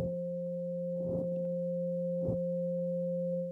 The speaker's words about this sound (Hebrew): 528, שזה תדר האהבה והניסים, תדר סולפג'ו עתיק, תדר של טרנספורמציה, הוא אגב נשמע ככה.